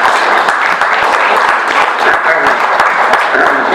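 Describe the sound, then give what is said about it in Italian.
Steady applause from an audience after a talk on the common good and faith, many hands clapping loudly at a constant level from start to end. “facciamo un applauso”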